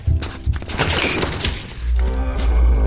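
Gunshots ring out: a few sharp, loud bangs followed by a dense, sustained roar of firing and a deep low rumble.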